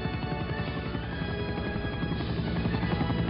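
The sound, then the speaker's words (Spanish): A helicopter flies overhead in a film action scene, a steady rhythmic rotor thumping wrapped in dense engine noise that continues without a break. “El helicóptero vuela sobre Sara que apunta con el rifle.”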